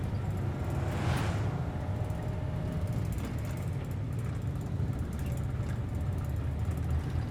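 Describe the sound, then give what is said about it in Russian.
A car drives along a road at night with a steady low rumble of engine and tyres, a brief brighter whoosh swelling early on, then an even, continuous drone. “Садится в машину. Ночь, дорога, фары машин.”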